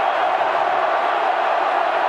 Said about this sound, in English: Crowd is up.